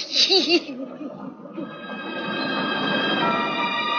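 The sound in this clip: A train at a big city station gives a steady, rushing rumble layered with high, sustained squealing tones, after brief voices at the start.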